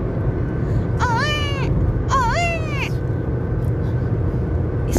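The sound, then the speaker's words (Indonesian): An infant crying from thirst lets out two short wailing cries, each dipping and then rising in pitch, over a steady low rumble. “Ismail kecil menangis kehausan. Hajar berusaha mendiamkan bayinya. Namun, suara tangis Ismail semakin kencang.”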